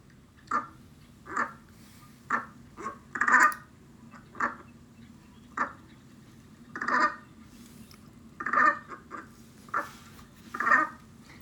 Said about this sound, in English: That is the brant, which is our mystery sound. And the brant is a small, stocky sea goose that feeds on aquatic plants.